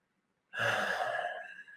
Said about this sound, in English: Five deep diaphragm belly breaths.